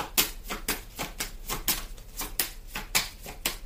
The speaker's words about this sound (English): Let me go ahead and take another card